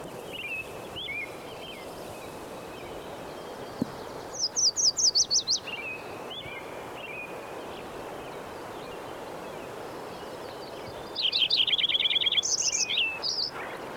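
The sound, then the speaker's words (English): Wilson's warbler singing: two bursts of rapid, very high chattering notes, one about four seconds in and another near the end, rising clearly above a quiet hissy background with softer high calls in between. “Wilson's Warbler in there.”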